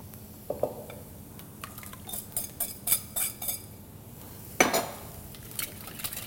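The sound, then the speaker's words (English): Whisking eggs with grated Parmesan, chopped Italian parsley and salt for a frittata: quiet metallic clinks and taps of the whisk come in a loose series, then a sharper clatter near the end. “And I want to whisk it until all the egg yolks are broken up and it becomes slightly fluffy.”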